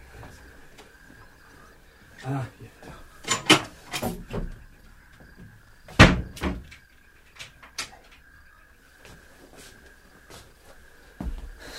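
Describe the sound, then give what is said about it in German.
Front door being shut and carefully locked, heard as a scattered series of wooden knocks, clunks and clicks, with the heaviest thump near the middle, over a faint steady hum. “Und damit verschwand er, nachdem er die Haustür sorgfältig hinter sich abgeschlossen hatte.”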